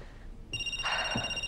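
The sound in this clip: A telephone rings with a bright, steady electronic tone that begins about a third of the way in and keeps sounding to the end. No one speaks.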